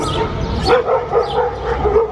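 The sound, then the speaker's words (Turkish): A dog barks and yips in many short, loud, repeated bursts during a clash between dogs on a street in Kapaklı, Tekirdağ. “Tekirdağ'ın Kapaklı ilçesinde sokakta köpeğini gezdiren genç başka bir köpek tarafından saldırıya uğradı.”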